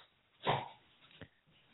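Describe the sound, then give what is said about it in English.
A dog making short breathy sounds, one louder huff followed by a fainter second one, both quiet against near silence. “The dog really wants to be a part of the show. Right. She's our dog.”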